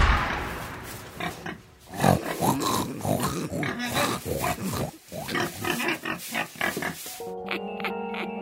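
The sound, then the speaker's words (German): Wild boar grunting and snorting as a magic transformation effect, many rough, loud bursts in quick succession, ending with a brief ringing tonal sound. “Das Menschlein soll ab jetzt ein Wildschwein sein.”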